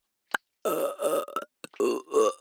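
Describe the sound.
A few drawn-out, rough, low burps, each lasting up to about half a second, separated by short gaps and preceded by a brief quick gulp; no words are spoken.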